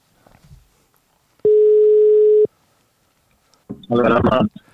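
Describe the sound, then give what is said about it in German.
A single steady, mid-pitched ringback tone of an outgoing telephone call sounds for about one second, followed after a quiet pause by a short burst of voice. “nochmal einen meiner Kollegen anzurufen, der eigentlich auch noch eine Geschichte erzählen wollte. Mal gucken, ob er rangeht.”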